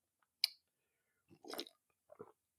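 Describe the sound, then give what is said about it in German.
Coffee being sipped: a few faint, soft mouth noises, starting with a brief click and then wetter slurping sounds, heard alone against silence. “Und dementsprechend trinke ich jetzt erstmal einen Schluck Kaffee”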